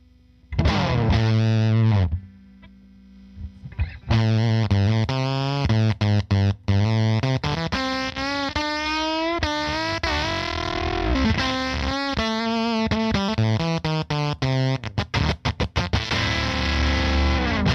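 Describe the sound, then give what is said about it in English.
A gated, splatty fuzz guitar pedal plays a heavily distorted guitar riff. Notes sputter and cut off abruptly into brief silences, giving a broken, choppy texture that runs for about eighteen seconds with no voices. “It really does a great gated, splatty fuzz kind of sound. I'll show you real quick.”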